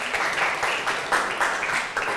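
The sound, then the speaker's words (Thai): A group of students in a language class clap for themselves. The applause is a dense, steady patter of many hands that goes on without a break the whole time. “ปรบมือให้ตัวเองหน่อยค่ะ”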